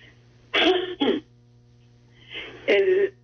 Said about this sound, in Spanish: Me disculpan porque tengo que estarme limpiando la garganta, porque estoy con un problema en la garganta, así que me disculpan cuando tengo que hacerlo.